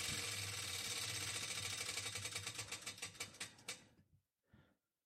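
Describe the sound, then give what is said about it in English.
A spinning prize wheel clicks rapidly, the ticks gradually spacing out as it slows, then stops. A brief faint sound follows after a short pause. “This wheel is a conspiracy. Spin it again, just for fun.”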